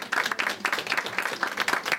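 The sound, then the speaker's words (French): Applause from the audience at a reading and concert evening as performers are named: thick clapping with a pulsing, rhythmic swell over about two seconds. “Il faut applaudir à chaque fois que tu sais.”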